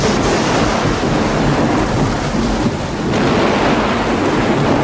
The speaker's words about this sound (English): Those clouds sound close.